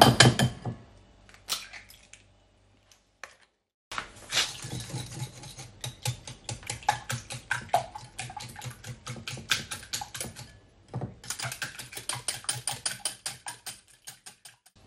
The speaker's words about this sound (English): I'll whisk those now then, so I don't forget.